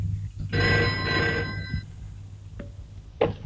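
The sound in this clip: A telephone ringing: one fairly faint ring burst of bright, buzzing tones lasting a little over a second, followed by a few soft knocks and clicks.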